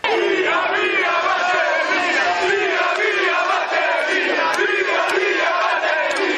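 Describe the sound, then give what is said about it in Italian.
A crowd at a political rally in Salerno shouts and chants in a mix of cheering and protest, a dense, loud, continuous roar of many voices without a break. “Ieri Salvini da Salerno, un po' di applausi, un po' di contestazione, vai a Salerno”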